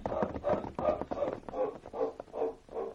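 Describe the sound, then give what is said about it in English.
Hooves clop in a steady, even rhythm as horses are mounted and ridden away, a faint series of about eight muffled beats with no voices. “Come on, let's mount and ride away from here.”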